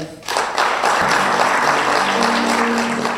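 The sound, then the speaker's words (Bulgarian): An audience applauds at a ceremony honouring an honorary citizen of Haskovo. After a brief quiet moment, a dense wash of clapping swells in quickly and holds steady and loud to the end. “Нека чрез вашите аплодисменти да отдадем дължимото признание на почетния гражданин на Хасково Борис”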